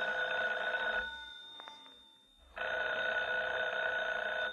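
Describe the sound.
A telephone bell rings in two long, steady bursts separated by a quiet pause. No voices are heard.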